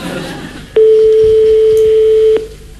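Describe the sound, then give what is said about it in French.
A single steady telephone tone sounds while a number is being called, holding one even pitch for about a second and a half before cutting off abruptly, over a faint low background. “Nous composons le numéro de téléphone de Jocelyne. Attention. Ça sonne. Ça ressonne.”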